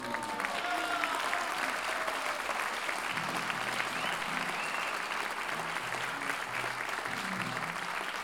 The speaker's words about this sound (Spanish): pedí un aplauso enorme.